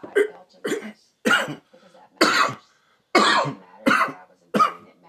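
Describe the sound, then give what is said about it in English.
A string of seven short, raspy coughs, each a separate loud burst with brief quiet gaps between, and no talking. “Excuse my little cough.”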